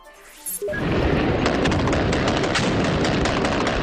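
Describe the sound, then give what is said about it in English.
Gunfire from a fierce battle between Taliban fighters and security forces at UN government buildings in Kandahar, Afghanistan: after a short quieter moment, a loud, dense crackle of many rapid shots runs on without a break. “Sounds of a fierce gun battle that broke out between a team of Taliban fighters who were targeting UN government buildings and the security forces there.”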